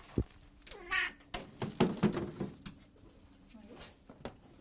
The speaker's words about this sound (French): une petite chatte de 12 ans qui nous vient de Fourrières